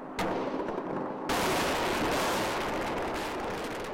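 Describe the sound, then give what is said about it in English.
Gunfire and explosions from airstrikes over Baghdad: a sharp burst after near silence, then a dense, loud, continuous crackling roar that holds to the end. “A month and a half after the UN speech, President Bush orders airstrikes over Baghdad.”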